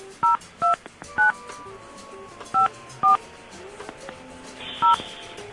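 Telephone keypad tones ring out as someone dials dad: six short, bright beeps at uneven intervals over a faint, quiet background.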